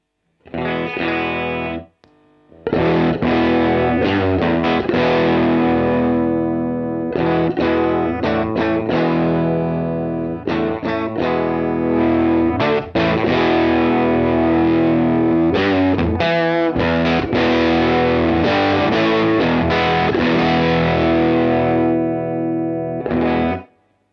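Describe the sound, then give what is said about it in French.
Electric guitar on the bridge pickup with the guitar volume turned down for a cleaner tone, ringing sustained chords played loud and steady, with a brief pause near the start and short breaks between phrases. “je suis sur le micro chevalet, je mets le volume de la guitare au taquet et puis je diminue le volume. Vous allez entendre qu'on récupère un son clean qui est bien sympa.”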